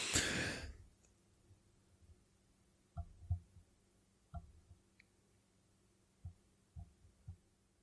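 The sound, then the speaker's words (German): A deep intake of breath, taken as a short pause in a conversation: a strong, brief, airy rush at the very start, then near-silence broken by several faint, low knocks and thumps. “Dann atme ich nochmal ganz kurz so tief ein, ja?”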